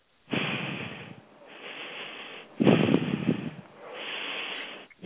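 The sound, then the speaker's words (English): Slow, deep breaths taken during a guided healing session: long, airy inhales and exhales that swell and fade, repeated a few times with no talking. “Okay, three nice deep breaths.”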